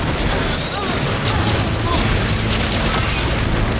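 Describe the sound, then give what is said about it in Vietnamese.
A dark laser attack blast in a battle: a loud, steady roaring rush of noisy energy that holds at constant strength throughout. “Nhận lấy này, laser hắc ám.”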